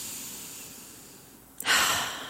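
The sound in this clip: A single deep breath drawn in, heard alone: near silence, then an abrupt, loud, airy inhale that swells and slowly tapers off.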